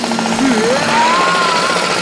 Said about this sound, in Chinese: 特别要感谢我们家隔壁的装修队，因为他们天还没亮就……